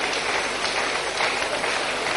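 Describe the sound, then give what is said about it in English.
Steady group clapping as people are sent off to collect cards, a dense continuous crackle with no breaks, evenly loud from start to end. “Let's clap for them as they begin to go.”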